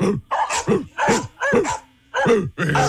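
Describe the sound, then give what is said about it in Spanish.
Dog barking in rough, harsh barks: a series of short, loud bursts in an uneven rhythm, separated by brief gaps, with a longer pause shortly before the final barks. “¿Esa no es su perrita? No. A ver, déjame ponerle otra. Mi perro no ladra tan feo.”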